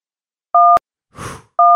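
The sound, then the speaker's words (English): Telephone keypad tones dial a long number: two steady dual-pitched beeps separated by a pause, with a brief soft noisy burst in the gap. The second tone is cut off at the end. “Yes, it's a very long number. Very long. Still dialing.”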